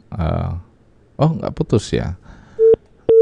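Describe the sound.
Two short telephone beeps sound as a dropped call is being reconnected. The steady mid-pitched tones come after a stretch of talk, the second beep starting just as the first ends.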